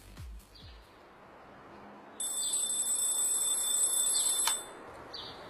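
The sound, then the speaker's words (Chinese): An alarm clock rings with a high, continuous electronic tone for about two seconds before cutting off, over a faint hiss with a few soft thumps at the start. “窗外的小麻雀正在叽叽喳喳叫，关上了闹钟”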